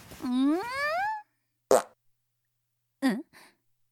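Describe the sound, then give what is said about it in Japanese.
Farts: a long squeaky blast that bends upward in pitch, followed after pauses by three shorter, sputtering bursts, the last one faint. “さー、あんたおならしたでしょ。何よこの匂い、最低。”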